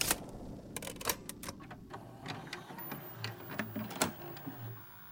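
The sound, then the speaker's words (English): Sharp plastic clicks and clatter as a tape is plugged into a player, many quick irregular taps in a quiet passage. “How about that next tape? Let me plug it in. Here it is.”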